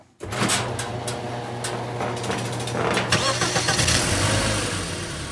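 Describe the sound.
A 1992 Geo Prizm car engine starts with an abrupt catch, then settles into a steady, low, humming run that holds at an even loudness throughout.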